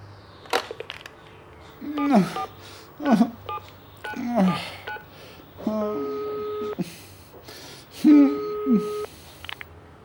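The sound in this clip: Telephone dialing tones as someone phones a dentist's practice: a few short tone bursts with small clicks, followed by longer steady electronic tones of moderate loudness.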